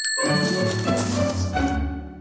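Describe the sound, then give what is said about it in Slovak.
A bell on the neck of a cow or sheep tinkles gently in a stable as the animal stirs its head, giving soft ringing tones that hang on and fade away at the end. “Keď zo sna pohnú hlávkou, zvonec na krku im jemne zacengá.”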